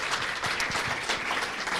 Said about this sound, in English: we could give them a round of applause. Is that okay? Just a quick round of applause.